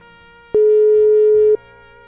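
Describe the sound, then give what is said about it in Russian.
A telephone ringback tone sounds while a call is being placed: one loud, steady, mid-pitched beep lasting about a second, with quiet background noise before and after. “Ну, попробуй позвонить, конечно, попробуй позвонить.”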